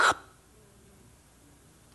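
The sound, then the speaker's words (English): A voice imitates a dying person's last breath: one short, sharp, breathy burst at the very start, followed by near silence. “I've been with many, many people when they took their last breath and God just went,”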